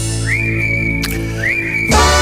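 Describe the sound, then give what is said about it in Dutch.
A person whistles two short phrases over background music. Each phrase slides up to a clear high note and holds it steadily, and the music grows louder near the end. “Even lekker fluiten.”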